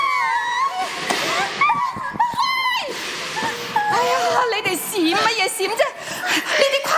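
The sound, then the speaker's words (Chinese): Water is hosed over a group of people to disinfect them, with splashing spray mixed with loud overlapping talk and laughter. “好，老规矩，冲水消毒。嚟，你哋快啲排排企，企埋一堆，冲水消毒，快啲。”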